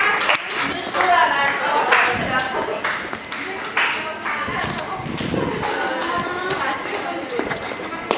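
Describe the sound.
Clapping for the winner of a game at a group gathering: scattered, uneven claps and sharp hand strikes recur throughout, mixed with people talking.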